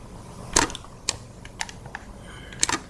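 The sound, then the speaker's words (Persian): Sparse key clicks from typing on a computer keyboard: a few sharp, quiet taps spaced irregularly, with short gaps between them. “تایپ هم میشه کرد اینجا؟ اگه بشه تایپ کرد خیلی بهتر. ببینم، آها میشه تایپ کرد”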